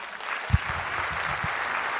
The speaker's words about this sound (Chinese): 感谢大家热情掌声